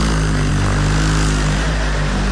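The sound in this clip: A cat purrs loudly as it wakes its owner, making a steady low rumble with a rich, buzzing drone. The purr runs without pause and no one talks.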